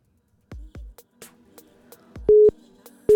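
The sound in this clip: Telephone line sounds as an incoming call connects: a few sharp clicks and pops over faint static hiss, followed by a couple of steady mid-pitched beep tones.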